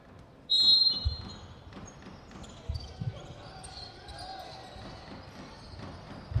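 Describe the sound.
Basketball dribbled on a court during a game, the thuds of the bounces mostly buried under steady crowd noise, with a few sharper hits standing out.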